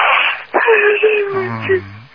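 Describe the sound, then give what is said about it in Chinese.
A girl cries over a phone line, letting out wavering, moaning sobs in a few drawn-out swells with a thin, band-limited tone. “好了，不要哭了。”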